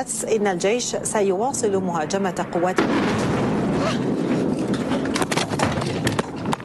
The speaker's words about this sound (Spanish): Y cae una de las bombas con las que Israel atacó ayer Siria.